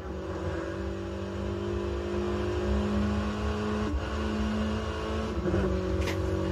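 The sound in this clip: A car engine accelerating under kickdown in a driving video game, giving a steady, droning engine tone that holds throughout with no talk.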